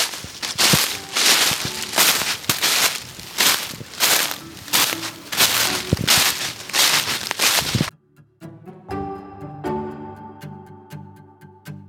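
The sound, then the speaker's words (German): Footsteps crunch through fallen leaves on a forest hillside in steady, rhythmic, crackling steps for most of the stretch, then stop abruptly near the end. “Ja, irgendwie rutscht das Laub darunter nach und das Kind kommt nicht sonderlich weit hoch. Naja, wir gehen dann einfach mal weiter”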